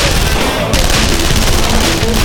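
Gunfire from a crossfire, a loud, dense, continuous barrage of rapid shots that runs through the whole stretch with no clear gaps between bursts.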